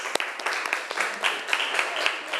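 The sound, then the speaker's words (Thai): Classroom children applaud a classmate in a brief, fairly faint patter of scattered claps. “ขอบคุณค่ะปรบมือให้มิมี่หน่อยค่ะ”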